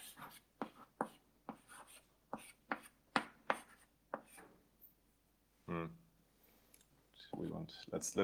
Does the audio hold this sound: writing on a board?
yes